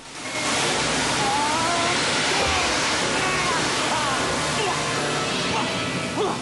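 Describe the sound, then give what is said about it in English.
High-pressure jet of water spewing out of a porthole: a loud, continuous roaring gush that sets in abruptly and holds steady to the end. “dives over a high-pressure jet of water spewing out of a porthole and fights to get through a line of them. The force of the water knocks him back”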